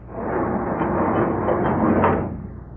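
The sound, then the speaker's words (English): A granite block door swings open onto a secret tunnel, a heavy, muffled grinding rumble that swells and then fades over about three seconds. “There. There, a tunnel. That granite block across the way swung open, right where this path ends.”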